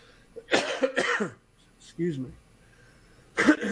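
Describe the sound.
A person coughs a few times: short, harsh bursts of breathy noise, with a brief voiced throat sound between them.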